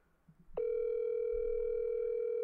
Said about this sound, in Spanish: Le estoy marcando.